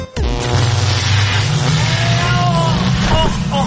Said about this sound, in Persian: و اما بریم ببینیم که ماشین زمانش رو امروز روشن کرده کجا رفته.